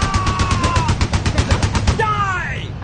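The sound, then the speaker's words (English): Rapid AK-47 rifle fire at a shooting range: a fast, even run of many sharp cracks for about two seconds, with a voice talking over the shots and continuing after they stop. “What's the person firing behind you there? That is an AK-47.”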